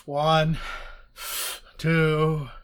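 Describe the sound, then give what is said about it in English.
A voice imitates deep breathing through a breath mask: two drawn-out, groaning voiced breaths on either side of a short, hissing breath, all loud and alone. “And they put the breath mask over me and they say, take 5 deep breaths. And I'm like, okay. And so I go,”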